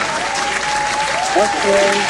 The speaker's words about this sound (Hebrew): כפיים באמת בענק.